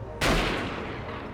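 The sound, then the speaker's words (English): A single gunshot: a sudden loud crack after a short quiet moment, followed by a long broad rumbling decay that fades slowly over the next second. “Nick is shot at DL.”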